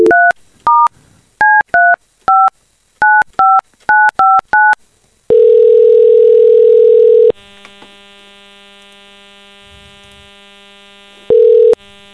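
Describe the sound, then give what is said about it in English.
Telephone dialing to call a listener: a rapid series of about a dozen two-tone keypad beeps, then a long steady tone, a ringing tone with hum, and another tone burst, loud and clear with no talking. “So we're going to call one of those people who texted us.”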